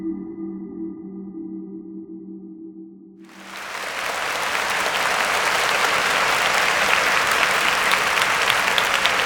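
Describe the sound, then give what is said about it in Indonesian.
Thunderous applause fills a national humanoid agency conference hall. It bursts in suddenly after a few seconds of quiet low sustained tones, then holds as a dense, loud, steady roar of clapping. “Dewan Persidangan Agensi Humanoid Negara bergema dengan tepukan gemuruh.”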